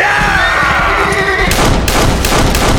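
Gunfire from .44 guns: a few sharp, loud blasts in quick succession that cut into a dense, rumbling background, which runs under the whole passage.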